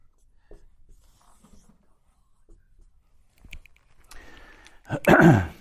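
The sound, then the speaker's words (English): Someone writing the word "rock" by hand. Faint, scattered scratching strokes build into a few louder, scraping strokes near the end. “I'll just write rock.”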